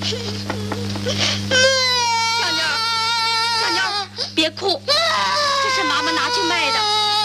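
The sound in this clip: A child crying and wailing loudly in a repeated, wavering sob that rises and falls, with an adult voice speaking at points.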